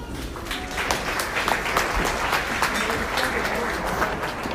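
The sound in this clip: Audience applause welcoming a speaker to the stage, with many hands clapping in a dense, steady wash that holds at an even level throughout.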